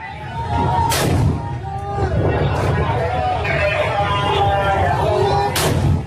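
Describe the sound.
Two sharp blasts of gunfire or shelling crack out during street fighting between government forces and rebel fighters in the port city of Hodeidah, Yemen, over constant shouting voices and crowd noise.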